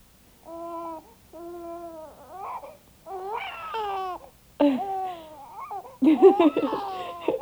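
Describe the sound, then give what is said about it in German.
A baby crying: several wailing, harmonic cries in succession, starting even and growing louder and more strained and broken toward the end. “Er schreit wieder. Gott sei Dank. Ich schau nach ihm.”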